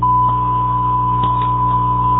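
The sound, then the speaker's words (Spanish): A voicemail tone sounds as one loud, steady beep at a single pitch that holds unbroken for the whole clip, with a low electrical hum running underneath. “Por favor, deje su mensaje después del tono.”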